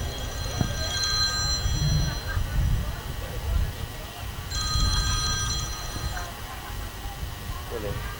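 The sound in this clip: A telephone rings during an Islamic religious study gathering, two separate bursts of bright, trilling bell tones, with voices and low murmur continuing underneath.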